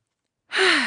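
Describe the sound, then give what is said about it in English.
A single deep breath taken as a breathy sigh after silence, with a faint voiced tone sliding downward in pitch over about half a second. “Now take a deep breath.”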